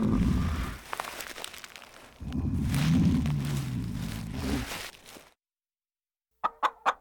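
An excited hen clucks three quick, short times near the end. Before that come several seconds of rustling, crinkling noise and then a brief silence.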